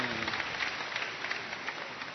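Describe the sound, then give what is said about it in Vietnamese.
Applause from a group during a church catechism lesson with a priest: a steady, dense patter of many hands, fairly faint and even throughout. “Chính xác, đây là câu cha chờ, cho một tràng pháo tay.”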